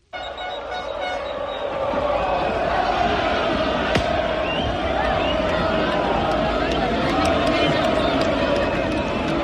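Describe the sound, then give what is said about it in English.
A huge crowd of about 60,000 football fans roars to welcome their team home after its first French cup final win. The cheering starts abruptly, then holds as a loud, dense, unbroken wall of noise throughout. “That is the sound of 60,000 Lens fans welcoming their team back after they beat Nice to win the Coupe de France”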